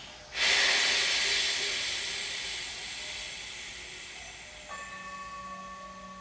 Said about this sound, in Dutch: we halen nog eens diep in door de neus. Houden het vast en bij de uitademing klinken we